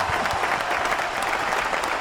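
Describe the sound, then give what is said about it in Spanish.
A snare drum roll builds suspense before a prize winner is named, a dense, steady rattle sustained for about two seconds. “¿Hay redoblantes? Tenemos redoblantes, sí, señor.”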